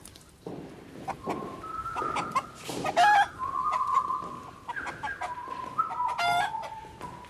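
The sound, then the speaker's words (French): Hens cluck inside a slatted crate full of black hens, mixing short clucks with a few longer drawn-out calls at an irregular pace and moderate loudness. “Une caisse à claire-voie, pleine de poules. Rien que des poules noires.”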